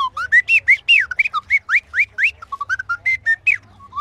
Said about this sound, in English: I'll start off with the bird caller.